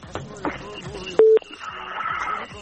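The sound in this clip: A single short, loud telephone dialing beep as an incoming call is placed. It cuts briefly through ongoing talking voices.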